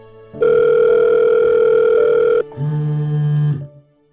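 A phone call's ringing tone plays over a loudspeaker: a long, steady, loud tone, then a shorter, lower-pitched tone.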